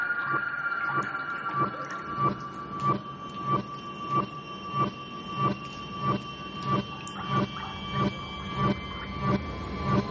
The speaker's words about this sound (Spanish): La joven se sumerge y la copa cae por la vibración del tren.